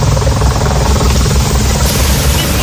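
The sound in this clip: A water-bomber helicopter flies over a wildfire in Seine-et-Marne; its rotor and engine make a loud, unbroken roar that holds steady for the whole stretch, with no voices.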